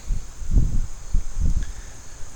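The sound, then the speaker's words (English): Wind buffets a microphone as someone walks backwards outdoors in rising wind: several deep, rumbling gusts thump and swell at low pitch, without talk. “I'm actually walking backwards to try to protect the microphone from the wind noise. I can hear the rumbling of wind in my ears.”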